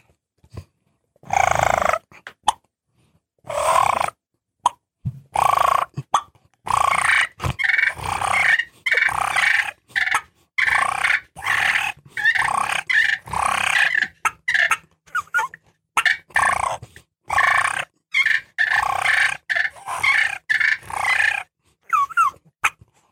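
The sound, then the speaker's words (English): Turkey gobbler fight imitated on an M150 diaphragm call and a slate call: many rapid, choppy, raspy bursts and squeals tumbling over one another for about twenty seconds, with brief gaps between flurries. “And I'm going to use the diaphragm call. It's the M150 and a slate call. And it sounds like this. This is a fight, a gobbler fight right here.”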